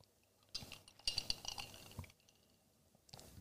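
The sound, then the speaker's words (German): Someone takes a drink, marked by faint clinks and scrapes of a glass in a few short bursts separated by quiet gaps. “Das trinke ich nochmal kurz.”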